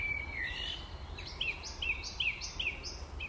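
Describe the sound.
Songbirds sing in Cambridge to attract a mate, heard as a faint run of short, high chirps repeated at a fairly steady pace over a low background hiss.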